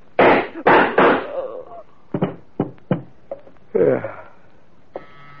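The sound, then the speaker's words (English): Gunshots ring out as a volley of sharp bangs: a few loud blasts come first, then a string of shorter, quieter cracks with brief gaps between them. “Mr. Harvey, I heard shots.”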